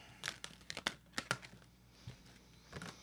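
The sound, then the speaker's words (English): Moon of the Oracle cards being drawn: crisp, crinkly snaps and rustles, a few sharp ones close together early on, then softer handling. Quiet, with no voices. “Let's get you your Moon of the Oracle cards.”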